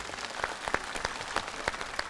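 Audience applause after a stage dance performance: a quick, irregular patter of many hands clapping, loud and dense, with no pause throughout.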